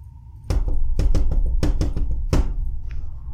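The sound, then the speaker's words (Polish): Knocking on a door: a series of sharp, fairly loud raps in irregular quick groups, with several distinct hits and no voices. “Ktoś puka?”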